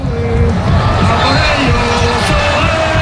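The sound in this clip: Football fans in Madrid's Colón square roar in celebration of an Oyarzabal goal, a loud, dense, continuous crowd din of cheering and shouting.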